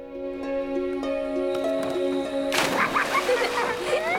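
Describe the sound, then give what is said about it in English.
Children splash in a river after jumping off a jetty: a burst of broad, choppy water noise takes over halfway through, following a stretch of steady held tones. “Children, including Nazneen and her sister, play happily by the river in the village, jumping off the jetty.”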